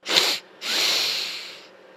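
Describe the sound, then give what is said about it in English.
Two breathy inhales through the nose during a calming breathing exercise: a short, sharp sniff, a brief pause, then a longer, steadier intake that fades gradually, with no talk. “I breathe. Two inhales through the nose”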